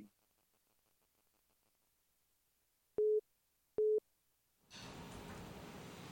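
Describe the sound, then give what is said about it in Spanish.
Busy tone after a phone call drops: two short, steady, mid-pitched beeps over near silence, followed by a sudden wash of loud, continuous hiss. “¿Se cayó la llamada?”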